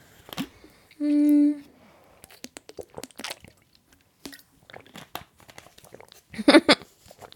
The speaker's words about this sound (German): Ich muss auch was dazwischen trinken, weil mir meine Stimme bald versagt.